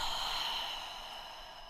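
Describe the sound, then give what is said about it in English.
A deep breath in and out, heard as a steady, airy rush of breath that fades slightly toward the end, with no talking. “taking a deep breath in and letting it go.”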